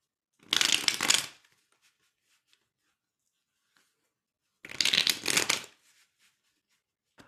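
Tarot cards are shuffled in two short bursts. Each is a dense, crisp riffling rustle lasting about a second, and several seconds of near silence with a few faint clicks separate them.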